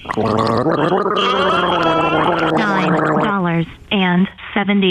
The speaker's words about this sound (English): Gargle that piss.